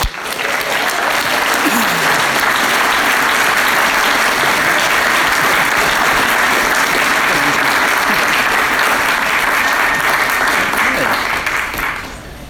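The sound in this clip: Steady, loud applause from an audience welcoming a speaker at an Al-Anon meeting, a dense wash of many hands that holds constant throughout before easing slightly at the very end.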